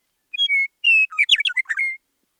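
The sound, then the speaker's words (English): A meadowlark sings in spring, perched on a post or yucca tip: two clear whistled notes, a longer sustained whistle, then a quick, jumbled, bubbling warble. It is loud and alone, with no other sounds. “You know for sure that it's spring when you see meadowlarks perching on posts and on the tips of yuccas and mullein and bursting into rapturous song.”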